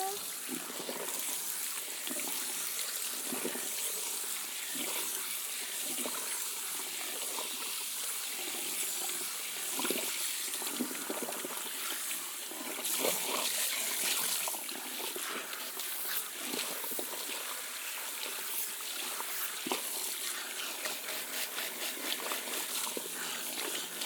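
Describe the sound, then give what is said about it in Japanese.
Hot water rinsing shampoo out of hair, a steady, dense rush of splashing and trickling that stays loud and even throughout. “シャンプーした後はしっかりお湯で洗い流さないとですからね。”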